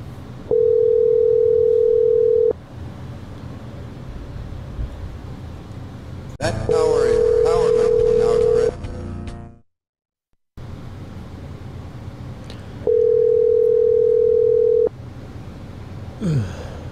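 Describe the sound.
Telephone tone heard while placing a call: three long, steady single-pitch tones of about two seconds each, spaced by longer gaps over a constant hiss, with a brief drop to silence partway through.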